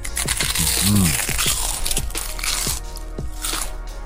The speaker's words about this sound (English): Was that a good idea to eat my crisps in the middle of the advert? I'm not sure.